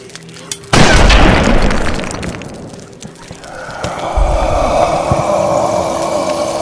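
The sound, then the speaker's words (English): A gunshot rings out, aimed at a man's head: a sudden loud blast with a long rumbling roar trailing after it, then a second heavy surge of noise a few seconds later. “shoot him in the head. I don't think shooting him's going to stop this fella, Jake. I know, but it should get his attention. All right. Here goes nothing.”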